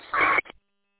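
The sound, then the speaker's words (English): A roger beep tail squawk from a Baofeng UV Pro handheld radio: one short, harsh, buzzy burst lasting about a quarter second, then a brief fainter blip and silence. “It's probably one of your, it's the Roger Beep. Is it a Bofang? Yeah, it's the UV Pro.”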